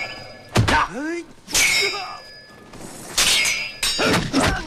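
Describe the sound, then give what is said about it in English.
A spear crashes down on sword blades in several sharp metallic clangs and thwacks, each strike ringing briefly, with a voice heard between the hits. “His spear crashes down on the sword blades.”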